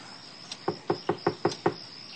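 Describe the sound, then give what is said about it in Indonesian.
Knocking on a bedroom door: a faint tap, then six sharp, evenly spaced knocks in quick succession, fairly soft and with no voices. “Tak lama kemudian, ada yang mengetuk pintu kamar.”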